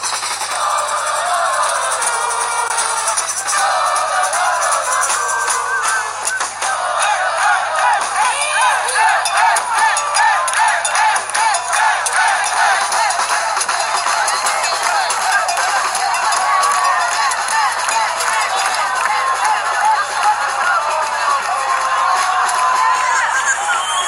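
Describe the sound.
Crowd cheering and shouting at the end of a live concert, with band members playing percussion and trumpet among the audience, a loud, continuous roar of many voices that stays steady throughout.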